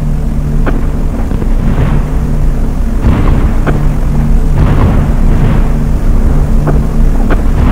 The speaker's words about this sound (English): Being stirred to the chaotic symphony of exploding flak